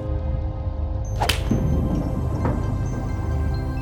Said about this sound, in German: Alles klar, man muss den Golfball über die Bande dort hinten in das Haifischmaul schießen.